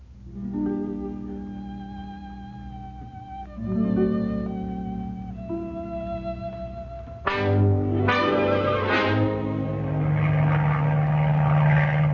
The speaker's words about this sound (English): Go in for your landing. Yes, sir, Mr. Jeffries. Hey, watch those trees.